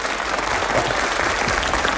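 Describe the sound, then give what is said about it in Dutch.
Loud, dense audience applause, a continuous wash of many hands clapping at once that stays steady for about two seconds without a break. “Ja, ja, applaus.”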